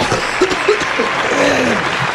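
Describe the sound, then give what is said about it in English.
Applause on a country music radio morning segment: a steady wash of clapping that carries through the whole stretch, with faint voices mixed in. “I got to give you a round of applause.”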